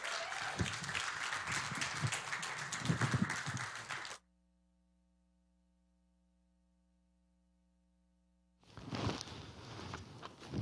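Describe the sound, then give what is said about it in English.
The Hope Ottawa church audience claps to welcome a speaker who is about to preach. The dense, fairly quiet applause runs for about four seconds, then a near-silent hum follows before noise returns. “Now let's put our hands together. Let's give Eric a warm Hope Ottawa welcome as he brings the word to us tonight.”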